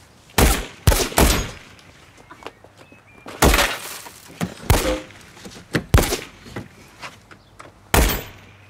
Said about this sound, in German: Er schießt die Bullenschlampe, er schießt die Seite ab! Ich habe meine Scheibe kaputt gemacht!